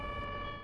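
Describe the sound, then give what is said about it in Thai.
An ambulance siren sounds as a loud, steady electronic tone with bright harmonics, with a low rumble beneath it, over a brief stretch. “รถพยาบาลอ่ะ”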